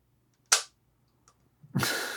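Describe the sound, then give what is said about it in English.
A plunger shoots forward in a canister device with one sharp, short snap, then a louder rushing burst that starts abruptly and fades slowly. “Yeah, there's a canister that goes in here. Okay, I got you. And then the plunger. Watch how fast the plunger goes.”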